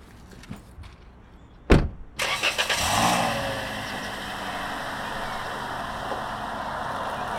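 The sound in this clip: A car drives away after dropping off a passenger. A sharp thump is followed by an engine revving with a rising rush of noise, which then settles into a steady, fairly quiet hum.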